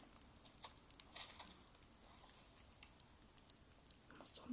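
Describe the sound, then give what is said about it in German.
A character in a video game eats coconuts, making faint, crunchy chewing sounds. The quiet bites and crunches come as many short, irregular ticks over low background noise. “irgendwo was zu essen sein. Ja, dann esse ich halt jetzt die Kokosnüsse.”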